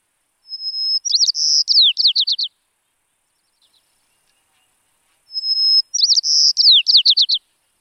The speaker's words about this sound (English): That was the call of the white-crowned sparrow.